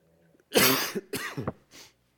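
Harsh coughs from a tickle in the throat, with congestion lingering after an illness earlier in the week. There are a few loud, raspy bursts in quick succession, heard alone with no talk.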